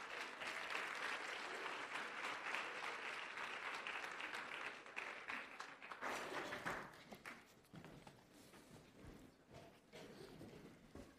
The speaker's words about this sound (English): All right, let's give them a hand.